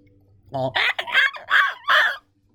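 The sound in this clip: Seagulls call while clustered around the stern of a partially sunken vessel. A short run of harsh, squawking cries comes in quick succession, each burst rough and bright, with silence before and after.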